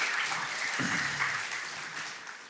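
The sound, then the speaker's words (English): Congregation clapping during a church sermon, a brisk, even patter of many hands that holds steady and then gradually thins out toward the end. “Y'all good? Yeah, if y'all gonna clap, clap. Don't halfway do it.”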